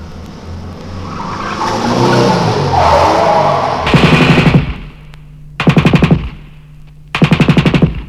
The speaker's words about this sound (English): Al Capone's gun, don't argue.